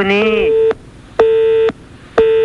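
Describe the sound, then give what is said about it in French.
A telephone line tone sounds after the caller has hung up: three loud, steady beeps at a fixed pitch separated by short silences, with the last one cut off. “Oh, pourquoi elle a raccroché ?”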